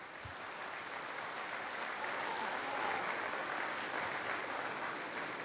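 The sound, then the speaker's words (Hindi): Faint, steady applause from a youth audience welcoming a visiting guest, a soft, continuous rush of clapping that holds an even level throughout. “हमें प्रेरित करने के लिए आप पहुंचे हैं। हम जोरदार तालियों से”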